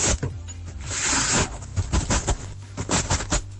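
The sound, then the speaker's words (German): Dry rustling and scratching as a guinea pig that has just given birth arranges its nest at night, coming in irregular bursts of crackly bedding noise with some louder clustered scuffles. “Und Hannes hat dazu geschrieben, ihr Meerschweinchen hat heute Kinder bekommen und das Nest zurechtgemacht, mitten in der Nacht.”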